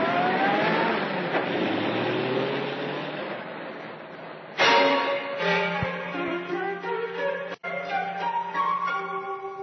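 A car drives away along a roadway in an old radio drama scene, opening with a broad, noisy engine rumble and a rising tone. A sudden shift then brings steadier humming tones that waver and fade.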